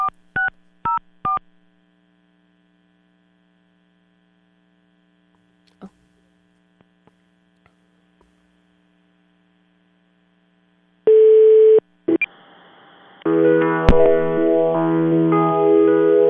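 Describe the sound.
Telephone line tones as a call is placed: a few short beeps, then a quiet stretch with faint hum. A steady line tone follows, then louder recorded audio picks up once the call connects.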